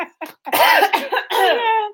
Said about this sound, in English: I need some water. Me too. I'm coughing. I've been talking. My throat's dry.